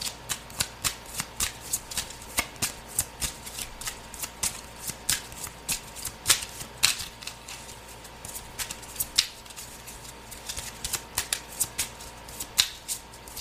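Tarot cards are shuffled during a card reading, producing a long run of soft, rapid riffling and flicking clicks that keep going throughout.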